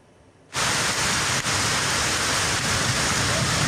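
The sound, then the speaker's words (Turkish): Heavy rain pours down in Turkey's Black Sea region during a storm that also brought hail. A brief quiet start cuts abruptly into a loud, dense, steady hiss that holds to the end, with one short dip. “Karadeniz bölgesinde şiddetli yağmur ve dolu etkili oldu.”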